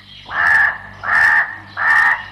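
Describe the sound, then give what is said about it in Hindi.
A crow cawing in a forest: three harsh, evenly spaced caws, each about half a second long, loud and alone against a faint low hum. “जंगल में पहुंचते ही कौवे ने काव काव कर सब पक्षियों को इकट्ठा किया”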